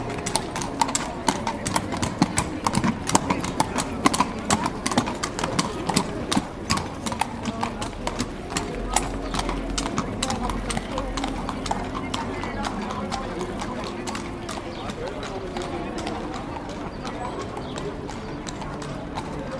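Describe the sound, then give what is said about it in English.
Horses clip-clop through Seville in a field recording, with many hoofbeats in a steady, overlapping rhythm of hard, bright knocks that runs continuously over a low street background. “I'm going to play you the field recording of horses in Seville, which is a pretty classic sound of the city.”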